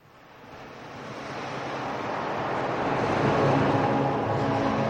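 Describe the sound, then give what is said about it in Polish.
Sea waves wash steadily around a boat rocking on the water, a continuous broad rushing swell that builds gradually louder and holds, with no voices. “Łódź unosiła się miarowo na falach. Wśród odgłosu morza usłyszałem złowróżbny głos.”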